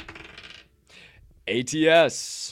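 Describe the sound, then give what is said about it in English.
A wild card die is rolled, giving a few light clattering rattles, then voices speak over the end. “Final roll of the day. Wild card die, or what we hope is the final roll of the day.”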